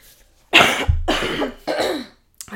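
A phlegmy cough from someone congested but not sick, heard as a few harsh, wet bursts in a row, loud and alone, with a small faint sound at the end.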